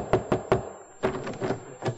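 Knocking at a door: three quick sharp raps, then after a short pause a few more uneven thuds, with no voices.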